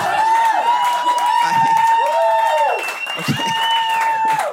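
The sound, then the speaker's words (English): A comedy club audience applauds and cheers, loud and unbroken, with long whooping calls that swell and dip over the clapping. “so comics, that's such a cheap, I took a cheap applause break. I know that.”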